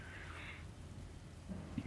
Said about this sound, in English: Yeah, the rain is pouring and there's thunder, but it's still kind of bright.